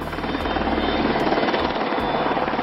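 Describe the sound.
Helicopters hovering over a 1984 wedding ceremony, heard as a continuous loud rotor drone with a steady rhythmic chop and a low engine hum, no voices.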